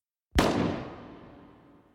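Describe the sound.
A single gunshot cracks out after a brief silence, with a sharp, loud onset and a broad tail that fades away over about a second and a half.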